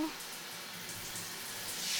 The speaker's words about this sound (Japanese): シャワーでヘッドスパのオイル流しちゃうね。